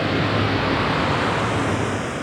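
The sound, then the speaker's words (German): Water of a flowing brook: a dense, steady rushing hiss that never breaks and keeps an even loudness throughout. “Wasser, Wasser! Richtig. Dieses Wasser ist ein Bach.”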